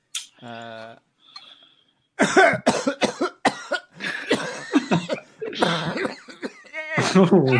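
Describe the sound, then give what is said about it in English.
A deliberately acted cough from a player during a tabletop role-playing game: a short forced burst at the start, then a pause, followed by people talking and laughing. “You might want to get that cough checked”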